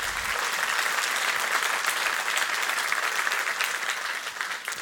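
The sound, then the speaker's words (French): An audience applauding during a church sermon, a dense and continuous crowd of clapping hands holding a steady level for several seconds before easing slightly at the close. “On peut acclamer Jésus, hein?”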